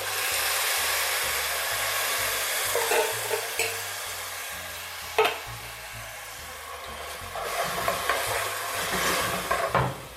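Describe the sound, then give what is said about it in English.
Frying of ginger, garlic and scallions in a pan as a can of tomatoes is added: a steady sizzling hiss runs throughout, broken by a few sharp knocks and scrapes. “So if I'm starting to see it start to brown again, I'm just going to go ahead and add that can of tomato.”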